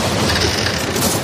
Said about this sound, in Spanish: La tormenta Juana destrozando tu antena suena así.